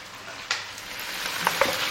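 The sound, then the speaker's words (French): Chicken thighs browning in a pan with herbs give a quiet, steady sizzling hiss, broken by a few faint clicks and stirring taps, with no talk. “Alors à présent, je vais prendre les cuisses de poulet. Donc je les fais revenir. Et je rajoute les herbes.”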